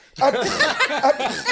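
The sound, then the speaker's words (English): A voice imitates a friend's sneezes, a quick run of several breathy, voiced bursts that comes out almost like a chuckle, loud and close together with no pauses between them. “he sneezes every single time. He does six in a row every time, and they're real like,”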